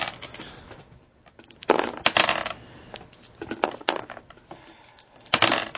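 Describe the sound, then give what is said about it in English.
Six-sided dice being sorted and rolled, with bright plastic clattering and rattling in a few uneven bursts of varying loudness over a faint background hiss. “As they're trying to find good D6s to roll.”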